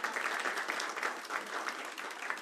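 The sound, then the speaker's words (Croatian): Applause from a gathered crowd: a dense, even wash of many hands clapping, sustained and fairly soft throughout without clear breaks. “Sad aplauz,”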